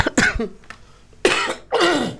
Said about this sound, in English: Excuse the cough. Still getting over the lurgy.